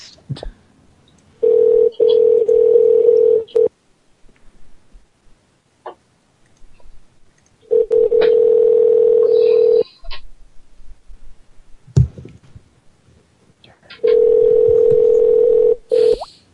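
Telephone dial tone with dialing: three long, steady, low-pitched tones of about two seconds each, separated by pauses. Sharp clicks sound between the tones, and no one speaks.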